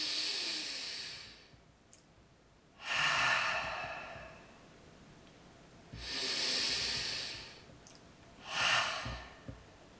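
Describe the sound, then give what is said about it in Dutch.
Deep breathing during a guided relaxation exercise, drawn in through the nose and released through the mouth: four long, airy, hissing breaths of moderate loudness, separated by quiet pauses. “ademen drie keer. Diep in door de neus en ademen uit door de mond.”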